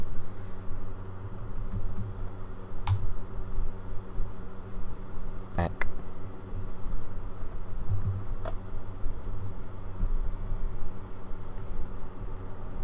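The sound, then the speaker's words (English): Smack of a computer keyboard space bar, a few sharp isolated clicks, one louder than the rest, over a steady background hiss. “I just heard a smack. Not like that, but like a smack of a space bar.”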